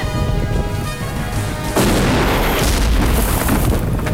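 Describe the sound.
An explosion blasting a rock apart: a sudden loud, broad blast cuts in partway through, following a stretch of tonal music, and becomes a sustained, heavy roaring rumble that stays loud to the end.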